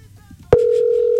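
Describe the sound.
A telephone tone sounds while a call is being placed: a brief click, then a loud, steady, mid-pitched continuous tone that holds unbroken until the end.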